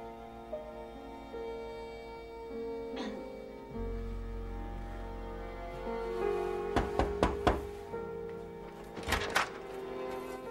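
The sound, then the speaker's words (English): A door being opened, heard as a cluster of sharp clicks and knocks followed by a second short burst of clunks over a steady background hum. “Mr. Hansen opens his door to Corey.”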